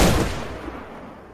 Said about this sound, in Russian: Мой выстрел разносится эхом по тайге.